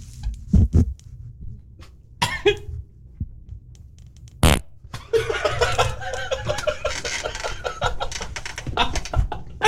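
Farts ring out as a few short, sharp blasts, followed by snickering and chuckling laughter.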